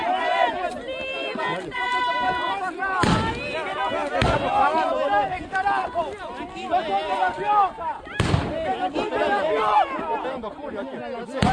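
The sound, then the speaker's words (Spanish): Police fire shots at protesters: a few sharp, heavy bangs cut through a dense, noisy crowd with shouting and loud talking throughout. “En este momento la policía está a 5 metros de los manifestantes y disparando a 5 metros en contacto con los manifestantes.”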